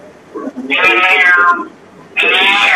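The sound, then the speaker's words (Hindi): A cat meows twice, each call loud, drawn-out and high, with a softer short sound just before the first. “ये बिल्ली किसके घर में है?”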